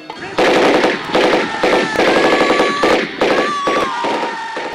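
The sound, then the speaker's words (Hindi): A Sten submachine gun firing rapid bursts in battle, loud crackling volleys of shots repeating with short gaps across several seconds. “बाना सिंह कभी इस मोर्चे पर दौड़ते तो कभी उस पर, स्टैगन से गोलियों की बौछार करते हुए”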